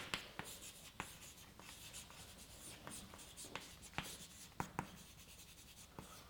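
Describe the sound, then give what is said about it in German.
Writing strokes on a board during a lecture: scratchy, tapping marks in irregular bursts, fairly faint, with many short sharp contacts and no talking. “Ich schreibe es mal hier hin.”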